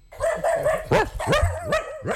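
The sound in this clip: A dog barks and yips, letting out a few sharp, fairly high barks among whining, tonal whimpers in a continuous, excited stretch.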